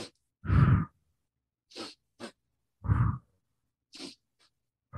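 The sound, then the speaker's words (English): A person demonstrates a breathing exercise: two quick, sharp sniffs in through the nose, then one longer, louder exhale out through the mouth. The cycle repeats, with silence between the breaths and no talking. “breathing in for 2 strokes in your nose and 1 stroke out your mouth. So it sounds like,”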